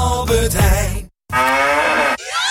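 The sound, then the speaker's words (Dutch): A cow moos, a sound used in a Müllermilch bottle promotion: long, low, loud moos separated by a brief moment of silence. “Al 1 van de 4 Müllermilkflesjes met dat moe-geluid is gevonden.”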